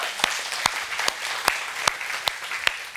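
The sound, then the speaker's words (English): A church audience applauds, a steady wash of many hands clapping with a few sharper, louder claps standing out at regular intervals throughout. “Can we just give the Lord a hand? Amen.”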